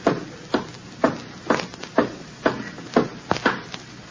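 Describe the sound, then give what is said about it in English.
Footsteps of a grandfather and children climbing stairs, with steady, dull thuds about twice a second that quicken slightly near the end. “We'll walk up the stairs. Grandpa, at your age, we better take the elevator. We'll walk up the stairs.”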